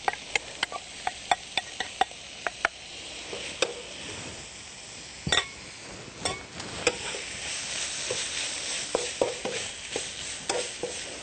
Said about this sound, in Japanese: でもう一度かき回しますね。はい、ではここにお豆腐を戻していきます。